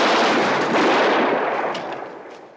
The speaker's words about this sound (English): Hotchkiss turns around and fires his Uzi, nicking Jeb's arm,